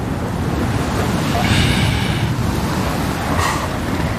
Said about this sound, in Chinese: 再往西去，莫纳赫群岛同样承受着狂风的冲击。